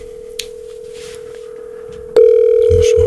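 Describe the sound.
Ringing tone of an outgoing telephone call, a steady, unbroken hum that holds level, then suddenly jumps much louder with a click near the end.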